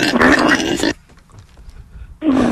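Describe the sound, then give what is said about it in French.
A pig grunts and oinks in two loud, throaty bursts, a longer one at first and a shorter one after a quieter gap. “Et on a Cédric, notre cochon.”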